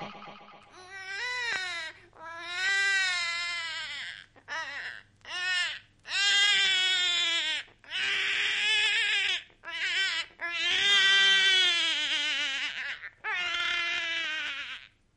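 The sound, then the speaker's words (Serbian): A baby crying loudly in many long, high wailing bursts. Short gasping pauses separate the bursts, and the cries hold strong, steady tones throughout. “dobro ste čuli, bio je to plač bebe u Gutenbergovom odgovoru”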